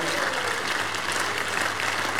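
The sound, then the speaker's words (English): Church audience giving a loud clap offering: dense, continuous applause that runs steadily from start to end. “Give the Lord the biggest clap offering, everybody.”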